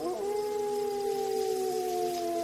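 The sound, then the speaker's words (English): A Rottweiler lets out a low, sustained howl, one drawn-out, harmonically rich tone that holds steady for the whole stretch with only a slight settling of pitch at the start. “It was as if the dog's ears pricked at being discussed, because he let out another low howl.”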